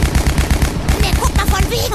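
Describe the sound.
Several MG 42 machine guns fire at targets in a loud, dense, rapid rattle of many shots, with voices briefly audible over the gunfire.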